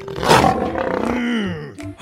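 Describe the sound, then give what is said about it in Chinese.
A voice imitates a lion's roar at a stage show: one loud, throaty, harmonic roar that falls steadily in pitch and tapers off over about two seconds. “大狮子一出来啊，就表现出凶猛的气势哦，大家别怕别怕。”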